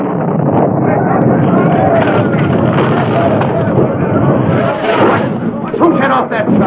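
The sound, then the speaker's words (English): A powerful blast in a mine tunnel comes across as a dense, loud rumbling roar that holds steady for the whole stretch with slight surges near the end. “Suddenly, from the direction of number 3 tunnel, there came the sound of a powerful blast.”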